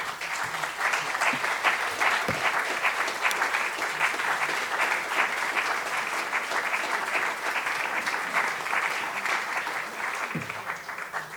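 An audience applauds to welcome two guests onto a stage, a dense, even wash of clapping that holds steady for over ten seconds.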